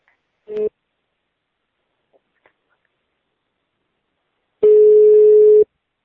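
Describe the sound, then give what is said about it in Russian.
A telephone line answers a redialed number with a short beep and a couple of faint clicks. Then comes one long, steady mid-pitched ringing tone lasting about a second, loud and clean against silence. “Сейчас еще раз набираю.”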